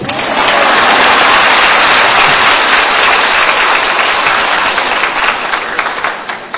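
Loud, sustained audience applause at a Buddhist monk's lecture in a hall in Houston, Texas: a dense wash of many hands clapping that holds steady throughout and thins only slightly near the end.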